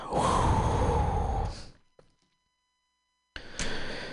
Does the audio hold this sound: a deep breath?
yes